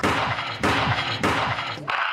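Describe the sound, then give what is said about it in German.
Biathlon rifle shots fired by a visitor at a public open-day event: three sharp, evenly spaced reports cut through a dense, noisy background. “nächste Runde Biathlon schießen. Die rechte Hand an das Griffstück.”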